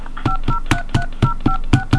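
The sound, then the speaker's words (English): Telephone keypad DTMF tones dialing a phone number, a rapid, evenly spaced run of about eight short beeps over a hissy line, with no talk. “Please enter 1 plus the area code plus the phone number you wish to dial.”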